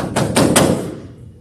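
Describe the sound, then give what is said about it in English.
Knocking on a door: three quick, firm raps in an even rhythm, followed by a short fading ring. No voices are heard. “you knocked on the door, and you knew they were there, but they weren't coming? It sounds something like this.”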